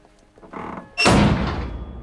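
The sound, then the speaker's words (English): A structure's roof crashing down like a giant bin lid: a short rumbling lead-in, then one loud metallic slam at about one second that rings and decays for the rest of the moment. “Following his final blow, one of the lights on the structure droops and the roof crashes down like a giant bin lid, shutting him in.”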